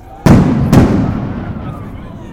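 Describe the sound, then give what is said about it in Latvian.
Stun grenades booming at a street protest: two sharp, loud blasts about half a second apart, each followed by a long rumbling decay that fades slowly. “pa laikam nodunēja trokšņa granātas”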